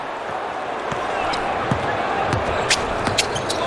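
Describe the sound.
A basketball is dribbled on the court during a game, giving several dull bounces over steady crowd noise while a commentator talks.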